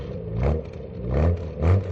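A car engine revs in three rough, rumbling surges that rise and fall. It is heard alone, without voices.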